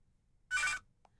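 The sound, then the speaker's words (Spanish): A telephone rings for an incoming call: a single short, bright electronic ring burst of about a third of a second, followed by a faint brief blip and otherwise near silence. “Entra llamada.”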